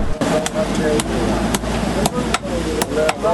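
A blacksmith hammers iron at a forge in a blacksmiths' bazaar. Sharp, loud metallic blows fall in an uneven series over a busy, steady background din.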